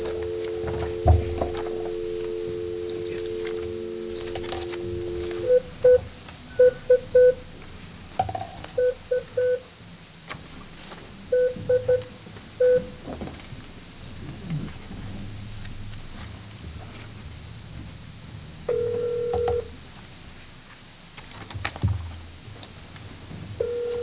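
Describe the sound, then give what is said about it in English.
A phone number is dialed on a speakerphone: a long tone, then several short bursts of dialing tones separated by pauses, over a low, quiet background hiss. “Yeah, do we have a phone set up where we can call him? We tested this yesterday, so you should be able to dial right off there. This one? Just use the speakerphone. All right, let's give this a try then.”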